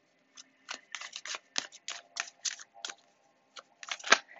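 A tarot card drawn from the deck: many short, crisp papery snaps and flicks come in quick, uneven bursts, quiet overall, with the sharpest snap near the end.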